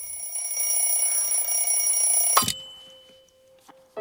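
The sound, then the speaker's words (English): A mechanical alarm clock set for 5:30 rings beside a man asleep on a cot: a loud, continuous metallic bell clatter lasts over two seconds, then cuts off abruptly, leaving faint rustling and a quiet steady hum. “The hands of an alarm clock arrive at 5:30, and the man sleeping on the cot wakes.”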